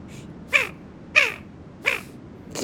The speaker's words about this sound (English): Here's the call of a barrow's goldeneye.